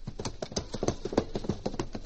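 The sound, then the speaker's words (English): A horse gallops along in a steady rhythmic clip-clop, with many quick hoofbeats in an even, repeating pattern that stays at a fairly constant loudness. “And tonight we find him galloping up to his cabin.”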